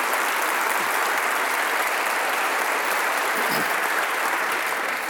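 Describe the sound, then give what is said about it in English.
A standing audience gives a guest a loud ovation, with dense, continuous applause at an even level and no voices standing out. “Well, I haven't said a word and I got a standing ovation.”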